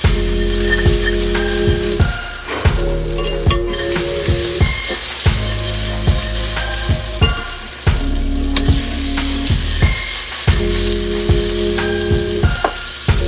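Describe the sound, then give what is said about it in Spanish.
Half a stick of butter melts and sizzles in a pan with a pinch of olive oil, giving a steady, loud frying hiss that carries on unbroken. “una pizca de aceite de oliva. Vamos a poner media barra de mantequilla a derretir.”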